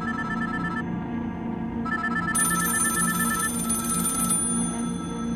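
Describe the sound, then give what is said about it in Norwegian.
Several telephones ring at once, their electronic bells overlapping in a steady, continuous wall of ringing with no pause and no voices. “Alle telefonene til Paul ringer samtidig. Men ingen tar telefonen.”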